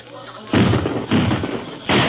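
Gunfire in a shootout with police, three loud, rough bursts of shots separated by brief lulls, the last cut off at the end.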